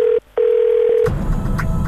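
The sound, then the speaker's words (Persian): A steady mid-pitched electronic beep that cuts out briefly after a fraction of a second, then sounds again for under a second before giving way to noisy background. “Beep.”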